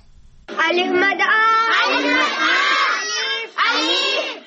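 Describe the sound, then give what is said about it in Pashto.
Schoolchildren at an informal village school near Peshawar call out together in a loud, sustained chorus. Their voices overlap continuously, with a brief dip before a fresh burst near the end. “رابع اکرم خان په دې اړه رپورټ لري چې د زده کوونکو په غږ شروع کیږي”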